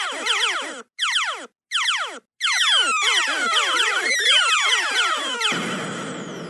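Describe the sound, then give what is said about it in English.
Electronic sound effects from the arcade game Galaga: a few short bursts of falling laser-like chirps separated by brief gaps, then a dense run of overlapping descending zaps that ends in a noisy crackle. “So I went and I listened to Galaga, and I downloaded some sound effects from there that were as close to what she was saying here. So listen to this.”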